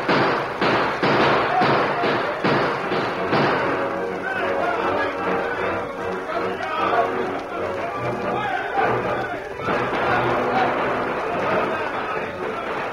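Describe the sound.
Gunfire in a shootout with outlaws: a rapid series of sharp, loud bangs over the first few seconds, then a dense, continuous noisy clatter that lasts to the end.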